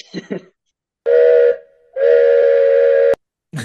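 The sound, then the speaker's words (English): A steam train whistle sounds two loud, steady blasts, a shorter one followed by a longer one. Each is a bright, sustained chord of tones with a clean start and stop. “We're supposed to be talking about choo-choo trains”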